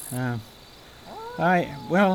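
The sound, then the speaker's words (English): A big cat yowling as it fights a tiny chipmunk in a radio drama: three loud, drawn-out, meow-like cries that rise and fall in pitch, with a quieter whine between them. “How can that tiny chipmunk tackle a big cat 10 times its size?”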